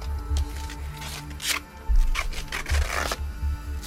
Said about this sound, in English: Now, she wraps duct tape over the wound and around her thigh.